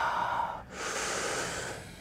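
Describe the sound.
A long, deep breath in during a standing leg stretch in a workout class: a quiet, steady airy hiss with a brief dip partway through, then a fuller rush of air.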